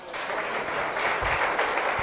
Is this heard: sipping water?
no